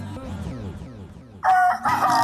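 A rooster crows at dawn, a loud, strained, harmonic crow bursting in partway through after a softer stretch of lower, wavering tonal sound, and holding steady to the end.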